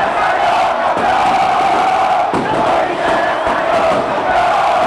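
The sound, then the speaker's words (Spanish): Olimpia football fans chant at a tetra-championship celebration. A loud, dense crowd roar holds steady throughout, with massed voices blending into a continuous wall of sound. “El público de Olimpia, los cánticos y los saltos.”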